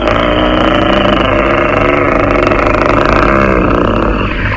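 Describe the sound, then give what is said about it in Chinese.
Over ten military sidecar motorcycles ridden by Japanese soldiers roar together in a loud, steady engine drone with a buzzing, whining layer on top, continuing without a break. “有十几辆鬼子的跨斗摩托车”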